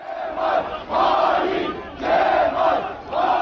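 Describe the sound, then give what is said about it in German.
CHP supporters outside the party headquarters in Ankara chant a slogan calling Kemal a traitor. The loud, unified shouts of many voices repeat in a steady rhythm of roughly one phrase per second. “Verräter Kemal rufen CHP-Anhängerinnen und Anhänger am Abend vor der Parteizentrale in Ankara.”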